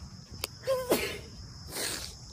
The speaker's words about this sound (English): sorry you guys, I had to sneeze